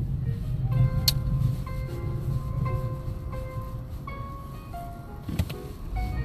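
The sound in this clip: A car driving along city streets on the way to look at a house, giving a steady, fairly loud low engine and road rumble with no break.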